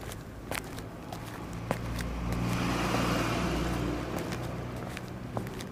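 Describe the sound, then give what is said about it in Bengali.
Trucks whoosh past on a road leading out of a village, a broad roaring wash that swells to a peak midway and then eases off, with a few faint ticks and crackles on top. “সোঁ শোঁ শব্দ করে ট্রাকগুলো পাশ দিয়ে চলে যাচ্ছে”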